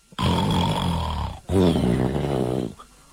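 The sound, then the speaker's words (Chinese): A voice imitates the loud snoring of a sleeping man: two long, rumbling, raspy snores, each a drawn-out breath with a throaty buzz, separated by a brief pause. “那呼噜声还非常大”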